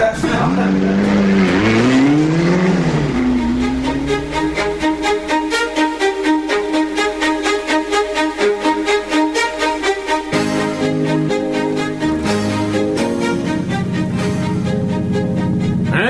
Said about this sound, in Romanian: Cum vi se pare motorașul? Grozav, cine și-ar putea închipui ce se aude sub capota asta pricăjită?